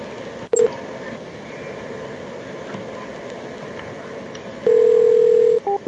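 Telephone keypad dialing tones sound over a steady background hiss: a short beep early on, then a long held tone, then a few quick beeps at the very end.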